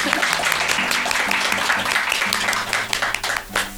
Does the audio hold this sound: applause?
yes